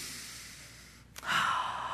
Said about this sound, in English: I'd like you to take a deep breath. How about another one?